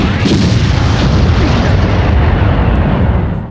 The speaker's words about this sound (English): launching a fucking rocket at a group of guards on the rooftop and taking out another guard tower in the process.